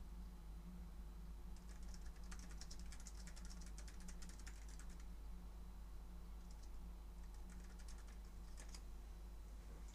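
Typing on a computer keyboard as an example sentence is written, with rapid, faint key clicks in two bursts separated by a pause, over a steady low hum.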